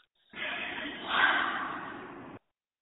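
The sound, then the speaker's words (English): A guided breathing exercise, air drawn in through the nose and let out through the mouth, heard as one long soft airy rush that swells in the middle and then cuts off cleanly. “Breathe in through your nose, into your tummy, expand your tummy, and then do the channel out breath through your mouth.”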